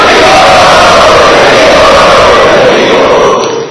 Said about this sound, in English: So let us welcome them by three times loudly chanting.